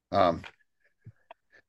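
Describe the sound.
A single sneeze bursts out loud and sharp, then fades into a few faint, scattered small sounds.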